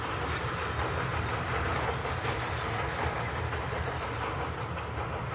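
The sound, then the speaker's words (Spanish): A train moves across a plain with a continuous, even rumble and rushing clatter of wheels and carriages that holds at a constant level throughout, with no voices. “El tren avanza por la llanura.”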